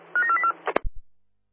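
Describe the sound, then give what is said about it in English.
Touch-tone dialing beeps from a dispatcher's telephone line placing a call: a quick run of about four or five short, steady tones, then a few sharp clicks and low thumps before the line goes quiet. “They're dialing now.”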